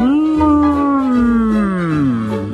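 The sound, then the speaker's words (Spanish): A moose-calling horn blown by a hunter gives a long, loud, reedy call rich in overtones. Its pitch wavers and sinks slowly across the note, and it sounds alone with no voices. “El francés dice: Pierre, toca el cuerno. Pierre toma el cuerno y”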